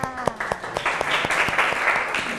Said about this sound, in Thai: ปรบมือค่ะ